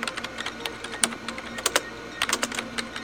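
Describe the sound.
Typing on a keyboard: a fast, irregular run of many crisp keystrokes in short bursts over a faint steady hum, with no voices.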